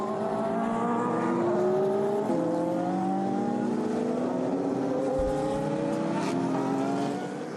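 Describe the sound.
Race car engines on the formation lap of the 6 Hours of São Paulo, a World Endurance Championship round: a continuous loud drone of several overlapping engine tones that climb in pitch and drop back with gear changes.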